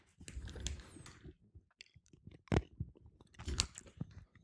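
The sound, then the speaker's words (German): Quiet chewing of a marinated olive, soft wet munching broken by a few sharper crunchy bites, faint and heard alone. “Die machen auch dick, die Oliven. Ja, ein bisschen. Ah, lecker. Dann habe ich noch eine.”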